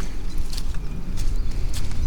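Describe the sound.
Footsteps of a person walking outdoors: a few soft, crunching steps at a steady, unhurried pace over a constant low background rumble.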